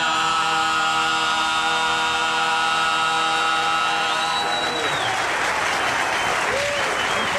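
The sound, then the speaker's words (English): An audience claps loudly and steadily, the sustained applause swelling as the closing notes of live music fade out, then carrying on alone to the end. “Yeah, well deserved. Keep clapping.”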